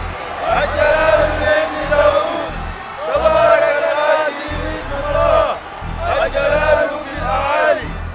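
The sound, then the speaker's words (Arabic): A large crowd shouts and cheers as Jesus enters Jerusalem in a dramatized reading, loud overlapping voices rising in three long waves of whooping and chant-like yelling. “وفرش جمهور كبير من الناس ثيابهم في الطريق، وآخرون قطعوا أغصانا من الشجر وفرشوها في الطريق، وكان الناس الذين أمامه والذين وراءه يهتفون”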